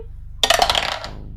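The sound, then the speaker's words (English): A sudden clatter of dice tumbling out of a dice tower during a tabletop role-playing game, a bright rattling burst that quickly thins into a few scattered taps. “Hold on, I got to clear my dice tower.”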